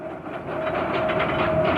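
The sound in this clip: Train rolling along rails, a deportation transport carrying Jews eastward from the Protectorate, with a steady, continuous rumble and rattle and a thin sustained tone running through it.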